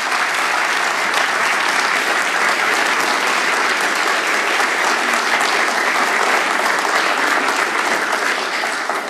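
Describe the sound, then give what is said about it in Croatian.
Loud, sustained applause from a concert audience for an opera singer and a young guitarist after Spanish folk songs by Manuel de Falla. The dense clapping stays at a steady level for about nine seconds. “Nagradimo ih još jednim velikim pljeskom, uistinu zasluženo.”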